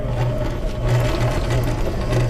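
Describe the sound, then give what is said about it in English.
A sewing machine runs at a summer sewing camp for young people, giving a loud, steady whir with a regular low pulsing rhythm that continues evenly throughout. “We sent in CBC's Jason Peters to help him overcome his fear of sewing machines”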